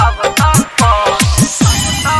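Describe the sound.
A mobile phone ringtone plays loudly and alone, a bright electronic melody of quick repeating tones and chirps pulsing in a steady rhythm.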